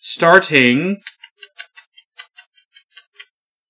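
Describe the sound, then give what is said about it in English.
A kitchen-style timer set for five minutes ticks in a steady, even series of many crisp clicks, preceded by a short burst of voice. “So I'm going to set a timer for 5 minutes.”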